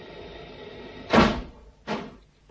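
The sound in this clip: Two dull thuds of a hatch or door being shut during final checks with seats strapped in. The first is louder and longer, the second shorter, both over a steady low hum.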